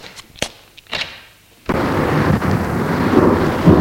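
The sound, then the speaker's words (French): A thunderstorm rages outside a house. A few sharp cracks come first, then a sudden loud, sustained rumbling roar fills the rest. “Dehors, l'orage fait rage.”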